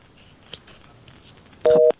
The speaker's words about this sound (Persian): فکر کنم تماسشان قطع شد.